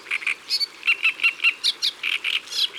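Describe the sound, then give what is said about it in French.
A reed warbler sings in a reedbed, giving many short, bright chirping notes in a quick, evenly spaced run. The chattering phrases repeat with slight changes in pitch. “C'est la rousserolle de l'histoire. Elle est par là, dans les roseaux. Oui, je sais. C'est là qu'elle fait son nid.”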